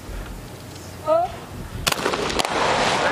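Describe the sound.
A gunshot rings out during a shooting competition with Chinese, Iranian and Indian team shooters: a sharp crack, then a smaller second report, over a steady background hiss. A brief tonal blip sounds before the shot.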